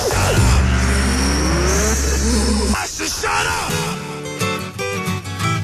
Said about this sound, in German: Achtung, Wagen Nummer 12 biegt in die Boxengasse ein. Das Auto läuft klasse.